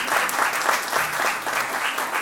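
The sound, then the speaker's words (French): An audience applauds a small music-school orchestra trio at a concert with a continuous, moderately loud patter of many hands that swells and dips slightly but never stops. “Dominique Galis, voilà, on peut l'applaudir”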